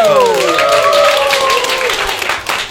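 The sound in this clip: An audience applauds to welcome a singer-songwriter from Xi'an. The clapping is dense and steady, with a few voices whooping over it, and it thins slightly toward the end.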